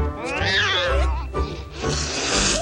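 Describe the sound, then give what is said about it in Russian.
A white cat gives a drawn-out, wavering meow that shifts in pitch several times, clear and fairly loud on its own, trailing into a rough, noisy rasp. “Наткнувшись на сидящую белую кошку, щенок бежит в противоположную сторону.”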